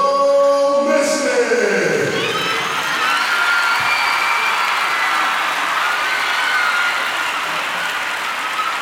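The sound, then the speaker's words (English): An audience cheers and applauds an inductee into the Mystic Hall of Fame. A broad, steady crowd roar builds early and holds at moderate loudness to the end. “Ladies and gentlemen, please rise on your feet and give a round of applause for this year's inductee into the Mystic Hall of Fame.”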